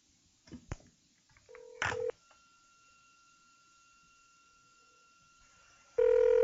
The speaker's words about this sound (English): And you hope you dial the right number.